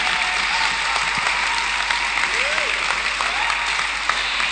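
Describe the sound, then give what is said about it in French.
A church audience applauding during a service: steady, dense clapping that continues without a break, with faint voices underneath. “Clap for Jesus. Acclamez pour Jésus.”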